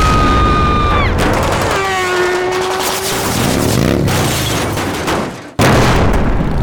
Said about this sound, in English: Is the sound effects library you need to make your next summer blockbuster go boom.